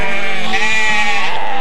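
A herd of sheep bleating: a loud, drawn-out, wavering bleat with a nasal tone fills the whole short clip without pause.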